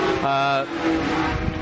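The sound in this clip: Engine of a big, heavy vintage racing car running on new Bridgestone tires: a low, droning motor note with a strong steady tone early on, heard under a voice talking.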